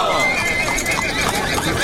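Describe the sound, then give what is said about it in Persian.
A horse whinnies while its hooves clop steadily, the sounds loud and continuous and mixed into a dense, busy background. “چون اسب سرش را به زیر انداخته و می رود”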